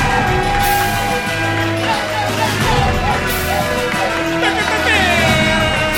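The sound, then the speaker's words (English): A crowd cheers and yells at a live show, a loud, dense and continuous roar of voices with whoops rising over it throughout. “Yeah, let's make some noise.”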